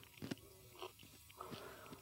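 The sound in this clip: Biting and chewing crunchy prepared jellyfish, tougher to bite through than expected: a few faint, soft crunches spaced through the bites, with quiet chewing between.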